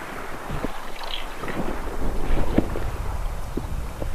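Wind buffets a microphone outdoors while someone is casting for fish, a steady low rumbling roar with gusty swells that runs throughout and peaks slightly around the middle.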